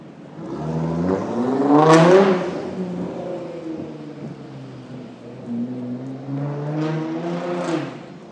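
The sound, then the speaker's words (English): A very loud car drives past on Millbank heading toward Parliament Square, its engine note climbing and swelling to a roar before fading, then another rising engine swell follows later. “Very loud car going up Millbank towards Parliament Square.”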